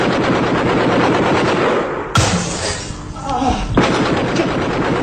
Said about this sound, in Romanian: Am împușcat. Au început atacurile